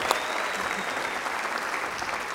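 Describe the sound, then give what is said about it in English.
Church audience applauding a new preacher, a steady, continuous wash of clapping at an even level from start to finish. “So would you give her a great Bridge welcome today? Would you do that? Come on.”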